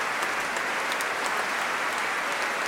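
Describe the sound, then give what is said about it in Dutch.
Audience applause at the close of a French baroque sacred requiem concert, a dense, steady wash of many hands clapping that holds an even level throughout with no voices. “En terecht, groot applaus.”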